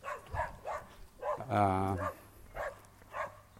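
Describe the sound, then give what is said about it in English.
A dog barks persistently and annoyingly: one drawn-out, harmonic bark or yelp sounds near the middle, while a person talks quietly before and after it. “That dog is really annoying.”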